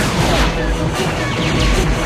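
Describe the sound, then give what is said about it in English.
Laser fire from Imperial walkers tearing into Rebel armor in a Star Wars film: a dense, loud, continuous barrage of blasts and impacts with deep booming underneath. “Laser fire from the walkers rips through the Rebels' armor.”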